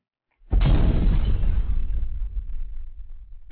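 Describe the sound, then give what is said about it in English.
A hit of Master Kush cannabis: a sudden loud burst of broad, rushing noise that starts abruptly, then slowly thins and fades over about three seconds. “This is the sound of me taking a rip of the bomb, the Northern Cali fucking Master Kush.”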